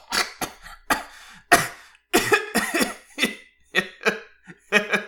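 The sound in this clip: A person voicing a tabletop game character choking, with many harsh, sputtering cough-like bursts in an uneven rhythm, each a short strained rasp separated by brief gaps.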